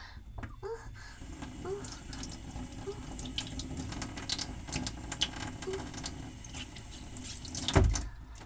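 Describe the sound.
Running water from a tap pours steadily while feet are washed, a continuous hiss with light splashing and a louder, fuller splash near the end.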